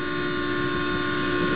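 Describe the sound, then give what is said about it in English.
A train rolling by gives a loud, continuous rumble with steady, humming tonal lines, holding level from start to finish with no voices. “And now looking to hop this train to who knows where.”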